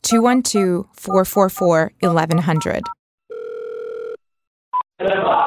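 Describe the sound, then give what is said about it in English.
Telephone tones sound while a hotline number is dialed: a steady tone of about a second, then a brief single beep, with someone talking before and after. “Well, you just dial this number,”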